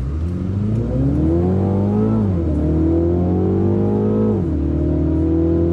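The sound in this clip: A BMW MINI with automatic transmission accelerates hard at a performance center in Thermal, California. Its loud engine note climbs steadily in pitch, dropping sharply at two crisp upshifts before rising again.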